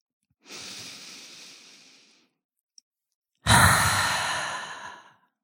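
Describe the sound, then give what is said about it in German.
A deep breath in and out during a guided yoga relaxation exercise. A soft, airy inhale lasting almost two seconds is followed by a pause, then a louder, fuller exhale that fades gradually. “Lass uns das noch zweimal machen. Tief ein. Und ausatmen. Anspannung loslassen.”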